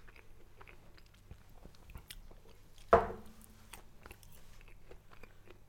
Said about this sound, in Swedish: Jag måste nog smaka lite. Du får prova, jag tar lite.